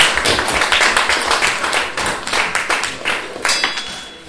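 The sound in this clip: Audience clapping to welcome a speaker to the stage, with individual sharp claps clearly separable in a brisk, uneven patter that dips slightly and then carries on at a fairly loud level.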